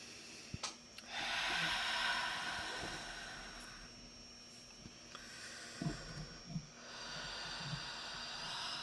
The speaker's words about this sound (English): Taking deep breaths.